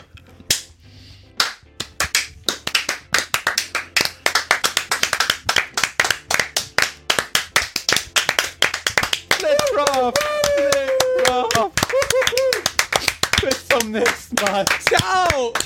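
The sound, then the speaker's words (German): Hand clapping from people in a room, a long run of many sharp, separate claps at a steady pace, with voices talking over the second half. “dass einer auf die Idee kommt, langsam zu klatschen.”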